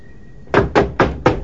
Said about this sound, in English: Crutchy knocks on Snyder's door and goes in.